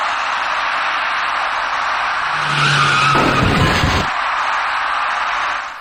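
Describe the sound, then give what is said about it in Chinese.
Tire squeal from a dark small passenger car heading north to south as it skids into an electric bicycle rider running a red light at an early-morning intersection. A steady roar runs throughout, with a squeal mid-clip and a harsh burst of noise before it eases off. “这位电动自行车骑车人无视红灯的指示，想要闯过路口，但是一辆由北向南开过来的深色小客因为躲闪不及，与骑车人发生了相撞事故。”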